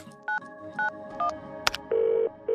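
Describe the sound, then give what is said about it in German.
Telephone dialing tones from a call being placed to a restaurant: five short, clear electronic beeps at varying pitches with an uneven rhythm, broken by a sharp click before the last two longer tones. “Währenddessen ruft ihre Mutter im Mesa Luna an.”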